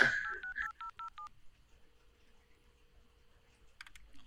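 A telephone number is dialed on a keypad, a quick run of several short, bright beeps at changing pitches in an even rhythm, followed by faint line hum and a few soft clicks.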